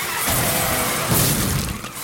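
Crash of a six-car pileup, metal and glass crunching and shattering in a dense, continuous roar that surges louder around the middle before tapering off.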